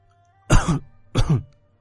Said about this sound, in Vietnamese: Tiểu phu nhân đỏ bừng mặt, ho khan vài tiếng kịch liệt.